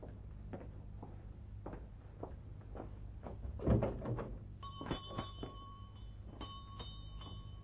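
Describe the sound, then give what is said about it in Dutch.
A shop door is opened with a few soft clicks and knocks and one louder thump in the middle, followed by faint bright ringing tones. The whole sequence is quiet. “Blijf maar zitten, ik doe wel open.”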